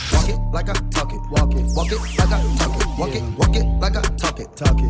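Hip-hop beat with booming bass hits returning about every second and a half, crisp busy hi-hats, and a sweeping synth effect across the upper range.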